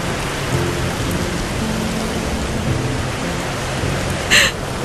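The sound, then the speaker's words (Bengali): Steady rain falls outdoors as a dense, continuous hiss that holds an even loudness from start to finish, with no voices. “কিনারে একলা বেঞ্চে বসে অদিতি গাছের পাতার মতো ভিজতে লাগল। সে ছাতা খুলল না, উঠল না, তার চোখের জল মিশে গেল বৃষ্টির জলে।”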